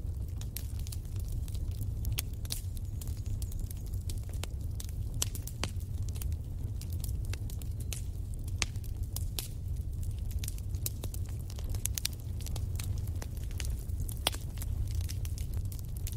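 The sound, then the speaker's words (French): Crackling fire flames: a steady low roar scattered with many sharp pops and snaps that come irregularly throughout, with no voices. “Vous observez les flammes qui dansent et ondulent avec élégance.”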